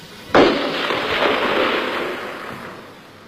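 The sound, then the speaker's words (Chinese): Gunfire in a dramatized Long March scene: one sudden loud blast followed by a long rumbling decay that fades over about three seconds, with no voices. “一串来自黑暗最深处的子弹击中了一个年仅15岁的小号兵。”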